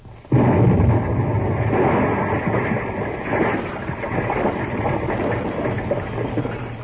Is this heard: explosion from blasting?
yes